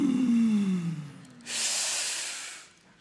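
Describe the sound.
Deep inhaling breath in a guided breathing exercise: a low tone slides downward and fades, then a long, steady, airy hiss of breath drawn in.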